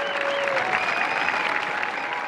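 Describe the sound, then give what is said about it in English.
A graduation ceremony crowd gives a spontaneous round of applause as an elderly woman is wheeled to the graduate seating, a dense, steady wash of clapping at constant loudness. “when her son Ray wheeled her to the graduate seating area, she got a spontaneous round of applause from the crowd.”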